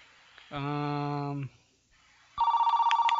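A telephone rings: a steady buzzing tone, a short pause, then a louder ring that trills with rapid even pulses.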